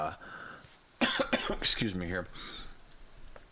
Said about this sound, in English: Excuse me, sorry, I had to take a little drink there to clear my throat